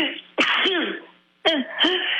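Two sneezes about a second apart, each a sharp burst of breath that trails into a short voiced tail.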